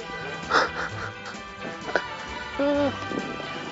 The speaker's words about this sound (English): Very angry bird.